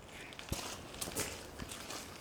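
Footsteps walking through a garden: a few soft, irregular steps over a steady, airy background hiss.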